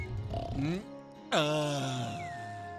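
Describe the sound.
Loud snoring from a sleeping person, likened to an electric saw: a short, rough, tonal burst, a brief pause, then a longer, drawn-out snore whose pitch sinks slowly as it fades.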